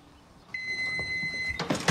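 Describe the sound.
A single long, steady electronic beep from a microwave oven in a home kitchen as a ready meal finishes, followed by brief clattering noises.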